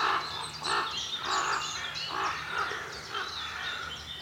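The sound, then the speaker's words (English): Ravens, at least three or four of them, call to each other from a branch with harsh, throaty croaks and caws in a steady, repeated series of loud bursts. No people speak. “Three ravens. All sitting on a branch, talking to each other. It's hilarious. Oh, there's a fourth. It's right beside me.”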